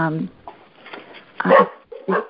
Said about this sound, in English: I got a dog barking on the line. Just a sec.